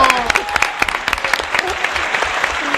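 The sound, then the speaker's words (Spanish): An audience breaks into steady applause, with dense, continuous clapping and a few sharper claps standing out through the stretch. “Luis, un aplauso.”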